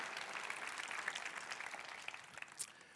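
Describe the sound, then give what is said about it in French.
Applause from an audience thanking themselves for their generosity and support of a project: a faint, steady wash of dense clapping with a few sharper claps standing out near the end. “Est-ce que vous pouvez vous applaudir pour votre générosité et votre soutien dans ce projet-là?”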